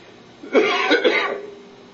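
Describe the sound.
A single short bout of coughing and throat clearing, rough and raspy, lasting under a second with a few quick pulses, alone against quiet background.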